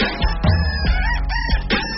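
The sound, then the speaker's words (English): Rooster crowing set to a techno track, the crow blended with a thumping electronic beat of repeated kick hits and synth tones, loud and steady with no voices. “I'm not sure if I'm going to get used to that. That rooster. It's actually called Techno Rooster”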